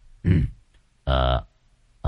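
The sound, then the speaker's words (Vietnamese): Two short, dry coughs from a man, the first a rough, noisy burst and the second a throatier, voiced hack after a brief pause. “Đoàn Lâm đứng ngơ ngẩn, một lát sau thì ho khan.”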